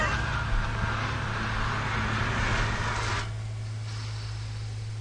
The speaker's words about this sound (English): I can hear my hard drive, disk drive whirring from here. It's rattling the table.